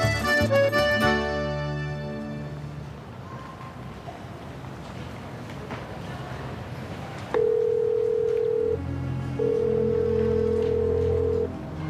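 Telephone ringing with no one answering: two long, steady ring tones sound in the second half, after a stretch of continuous background noise.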